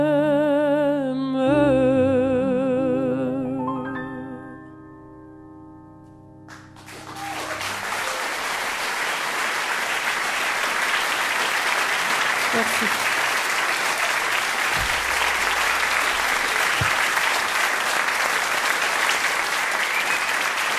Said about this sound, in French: une standing ovation